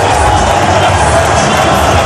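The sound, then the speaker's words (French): A rugby crowd exults at the Ernest-Wallon stadium after the Pro D2 final that sends Vannes up to the Top 14. Many voices merge into one continuous, loud, unbroken roar of cheering. “Le public d'Ernest Vallon qui exulte, c'est 13 023 qui vont en top 14.”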